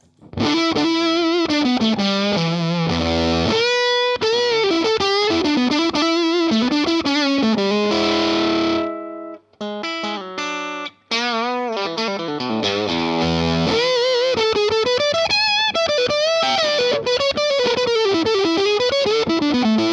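Electric guitar played through a distortion pedal built around a germanium transistor, giving a round, smooth fuzz on a melodic run of sustained, harmonically rich notes. The notes are loud and alone, with a brief break midway.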